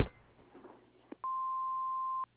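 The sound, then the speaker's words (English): An answering machine message tone sounds after a soft click as a single steady electronic beep of medium-high pitch. It holds unchanged for about one second, then cuts off into near silence. “if you leave a message after the tone, we'll get back to you as soon as we can.”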